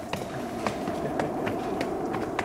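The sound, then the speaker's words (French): Footsteps climb a red staircase leading up to a studio. A steady series of soft footfalls sounds over continuous background noise. “Eh bien allons-y, on va monter cet escalier rouge qui nous mène au studio.”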